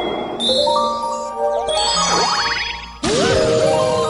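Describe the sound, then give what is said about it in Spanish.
Harp-like arpeggio plays on a launch in a video game, timed to the launch and in harmony with the background music. Bright, layered chiming notes ring with quick sweeping runs, and a fresh bright burst enters near the end. “Cuando realizamos esa acción, suena como una especie de arpegio, de, un arpa, ¿no? De manera sincronizada con el lanzamiento”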